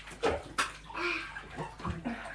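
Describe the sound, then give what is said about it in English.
Water sloshes and splashes in a bathtub as someone rinses during a child's bath, a few sharp splashing bursts over a continuous watery wash. “Right, let me rinse this.”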